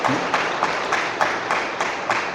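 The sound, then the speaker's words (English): Audience applause for parents at a celebration of ministerial priesthood: dense, steady clapping from many hands, with a few slightly louder bursts pulsing through it. “I think we can give a round of applause to our parents, my dear brothers and sisters.”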